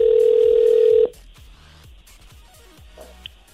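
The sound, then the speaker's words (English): An outgoing telephone call: a loud, steady dial tone holds for about a second, then cuts to fainter short repeated tones and clicks. “So let's give him a call.”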